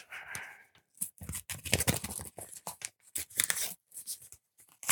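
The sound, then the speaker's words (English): Paper tearing and rustling as a famous golden envelope is opened for a fan-song award, a run of irregular crisp rips and crinkles with short gaps, fairly loud and without talk. “So I'm just going to open up the famous golden envelope”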